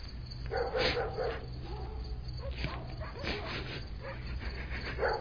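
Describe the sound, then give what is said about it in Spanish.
Dogs bark all around in a steady chorus of yips, woofs and whimpers that overlap one another without a clear rhythm. “oyó cómo por todas partes ladraban los perros.”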